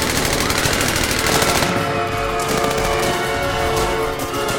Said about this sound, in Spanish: ¡Disparan, número uno!